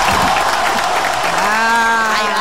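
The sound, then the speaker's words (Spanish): Audience applause fills the whole stretch: a dense, loud, steady wash of clapping from a crowd, with some voices mixed in. “Ese es el aplauso que queríamos. Ahora nos gusta ahora más.”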